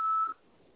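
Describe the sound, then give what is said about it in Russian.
A voicemail beep signal sounds once as a short, high, steady tone, followed by near silence. “Вызываемый абонент, к сожалению, все еще не отвечает. Вы можете оставить для него голосовое сообщение после сигнала.”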